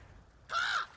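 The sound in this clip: A raven gives a single hoarse, rasping caw lasting about a third of a second, standing out against a quiet, low background.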